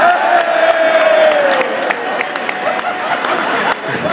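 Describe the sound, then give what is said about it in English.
Football crowd at a Kilmarnock v Celtic match raising a sarcastic cheer: a steady, broad roar of cheering and clapping with scattered whoops that holds throughout and eases slightly toward the end. “Uh, we appear to have sarcastically cheered.”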